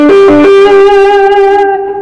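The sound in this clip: Electric guitar played through a distortion effect: a few quick picked notes give way to one long, buzzy sustained note that rings loudly and slowly fades, with no talking.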